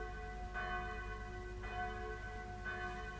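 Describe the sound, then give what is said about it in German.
A loud morning wake-up bell rung by a sea captain in a sailor's cap and sea boots, sounding three evenly spaced, rich ringing strokes whose tones hang and overlap above a steady low background. “Nun, da Kapitän Kett in Matrosenmütze und Seestiefeln mit seiner lauten Raus-aus-dem-Bett-Glocke den heutigen Tag verkündet.”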